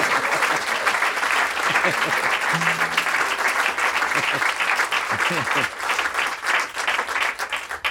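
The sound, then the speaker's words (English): Applause from a live audience for a member of a bluegrass band, a dense, steady clatter of clapping hands that holds at an even level from start to finish. “Little hand for Rob McCoury. That's my son right there.”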